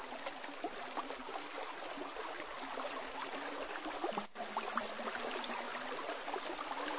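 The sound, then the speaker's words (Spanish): A stream murmurs beside a small cavern reached after a long descent in darkness, its water rushing and bubbling in a steady, continuous wash at a moderate level with no other sounds. “Después de un largo recorrido en silencio, escuché el rumor de un arroyo.”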